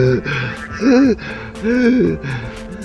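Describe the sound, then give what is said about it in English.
A man gasps and groans for breath after collapsing from a leak of toxic gas, making a few voiced, rasping breaths and strained sounds, with two louder heaving gasps in the middle. “the guy sort of that like crumbles to the ground, and he's like just struggling to breathe, and he's finally getting to breathe the the right stuff”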